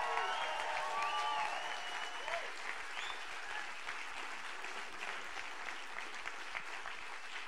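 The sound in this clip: A church audience applauds with dense, steady clapping that holds at an even level throughout.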